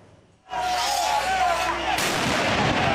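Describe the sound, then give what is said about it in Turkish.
Fireworks, molotov cocktails and tear gas at an anti-corruption street protest in Tirana that turns into clashes with police. Two heavy blasts go off, each followed by a loud, sustained rumbling crackle. “Havai fişekler, molotof kokteylleri ve göz yaşartıcı gaz. Yolsuzluk protestosu yerini bir anda çatışmaya bıraktı.”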